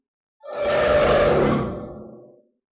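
Demons roaring: one deep, growling roar that swells in quickly, holds loud and rough for over a second, then fades away on its own.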